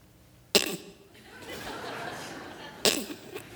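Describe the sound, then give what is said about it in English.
A voice imitates an animal's cough-like puffs of air leaking from its tiny nostrils: two sharp, breathy bursts a couple of seconds apart over a low, steady hiss. “it's not a perfect system because they have these little tiny nostrils, and the air, it leaks out. You know, every couple seconds, it sounds like a cough.”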